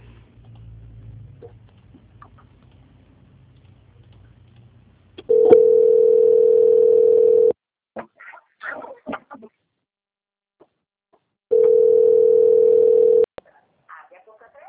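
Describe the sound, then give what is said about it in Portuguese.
Telephone line tones while a customer-service call is transferred to a bank's quality-control department: two long, steady mid-pitched tones of about two seconds each, separated by a gap with faint clicks and rustles. “Peço que a senhora aguarde na linha, tá? Eu vou transferir a ligação para o meu setor de qualidade agora.”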